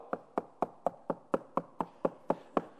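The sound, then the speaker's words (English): Knocking on a door: eleven sharp, evenly spaced raps in a steady, fairly quick rhythm, faint and heard alone. “You don't just go up and go, knock. No, you go,”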